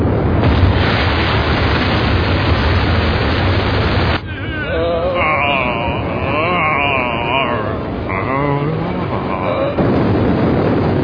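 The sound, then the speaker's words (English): A rocket launch roars as a loud, dense, rumbling blast that runs without a break. Wavering tonal sounds rise over the rumble in the second half before the roar swells fully again near the end. “3, 2, 1. Make rocket go now.”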